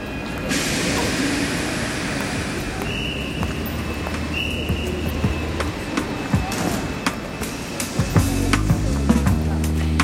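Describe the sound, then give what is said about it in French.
Suburban trains arrive at a Paris railway station platform on a morning in late October. A steady rumbling roar carries brief high squeals, and low droning tones enter near the end. “Les trains de banlieue déversent sur les quais de la gare d'Austerlitz des quantités d'ouvriers et d'employés.”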